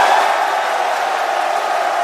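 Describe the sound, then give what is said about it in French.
A lively young audience cheers in amphitheatre D of Joseph Ki-Zerbo University. The dense, continuous roar of voices holds an even, loud level throughout. “nous sommes en live dans le bel amphithéâtre D devant un public de jeunes particulièrement chaud, comme vous pouvez l'entendre.”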